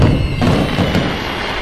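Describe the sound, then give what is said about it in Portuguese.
Fireworks going off during New Year celebrations, a loud, dense booming rumble with a heavy thud at the start that eases slightly toward the end. “Fim de ano, época de festas. Para muitas pessoas, a queima de fogos é o momento mais esperado das comemorações.”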